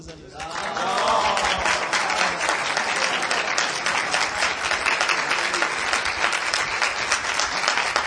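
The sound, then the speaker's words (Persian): Applause from an audience at a Persian-language religious recital: dense, steady clapping that swells in after a brief quieter start and holds evenly for about seven seconds. “یا دست بزنیم.”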